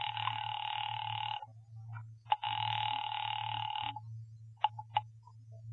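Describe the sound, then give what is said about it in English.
A telephone rings on a line calling the police department: two long buzzing rings separated by a short pause, over a steady low hum, followed by a few brief clicks. “Ringing the police department.”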